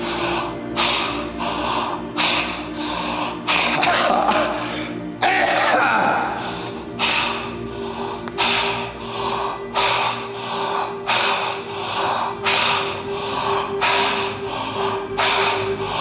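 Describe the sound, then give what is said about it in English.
Breathing with the chest opened, in quick sharp breaths that come in a steady run of short bursts over a sustained low drone, without pause for the whole stretch. “Breathe erratically, open the chest.”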